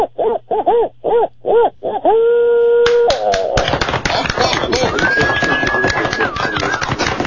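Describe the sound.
Barred owl hooting in a rhythmic run of rapid, wavering hoots, followed by a steady tone and then a stretch of dense, noisy sound.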